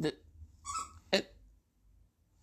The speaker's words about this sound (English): Excuse my dog deciding to play with his new toy just at this exact minute.